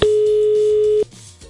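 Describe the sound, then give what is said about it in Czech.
An outgoing telephone call gives one long steady ringing tone, a loud pure hum lasting about a second, then it cuts off into quieter line noise. No one speaks. “Tak schválně, u koho zvoníme?”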